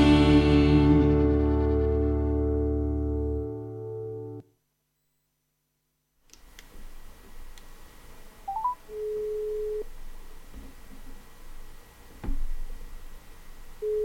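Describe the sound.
A telephone ringing tone sounds during a call. It follows a loud held tone that cuts off into a few seconds of silence, then comes as a faint, low, steady beep over quiet background clicks.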